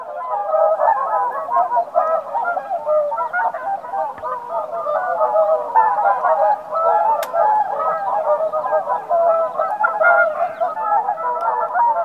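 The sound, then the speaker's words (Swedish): A gathered flock of whooper swans calls together in a dense, continuous chorus of overlapping nasal, trumpeting honks. The chorus stays loud and steady throughout, with no voices over it. “Och när en hel flock kommer samman så blir det, ja just det, en riktig svanesång.”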